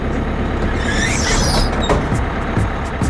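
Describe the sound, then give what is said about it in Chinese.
A bus door opening with a pneumatic hiss over the steady, loud rumble of the bus, with a brief sharp burst of air partway through and no voices. “把车门打开！”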